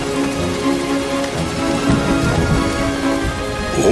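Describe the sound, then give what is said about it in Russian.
Autumn rain in the taiga falls as a loud, unbroken hiss and patter of dense drops, steady from start to end, over a faint tonal hum. “Вау! Дождь! Бежим!”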